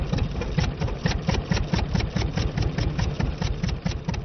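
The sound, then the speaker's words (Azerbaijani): Petrol-powered electricity generators run steadily, giving a dense, rapid mechanical chugging hum that stays constant in loudness throughout, with no voices. “Bircə, işıq əldə eləmək üçün benzinlə işə salınan generatorların səsindən başqa.”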